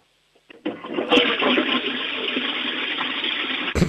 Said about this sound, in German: Die ist sogar sehr laut, deine Klospülung.